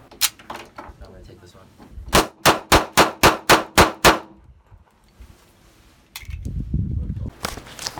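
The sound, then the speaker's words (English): Gunshots from a gun fired at an open shooting range in Palm Springs, California: a rapid, evenly spaced string of sharp, loud reports, preceded by a few scattered cracks and followed by a low rumbling noise. “It's a great gun, best gun I've ever shot.”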